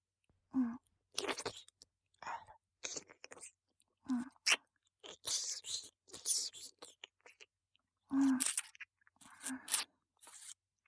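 Crunchy food being bitten and chewed: quiet, irregular bursts of crisp crunching and munching separated by brief silences, with a few lower, softer bites mixed in.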